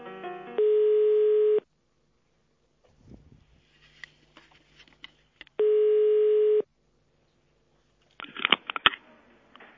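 Telephone line tone on a call to an office: two steady, buzzing one-second tones separated by a long pause, with faint handling rustles between and a brief clatter near the end.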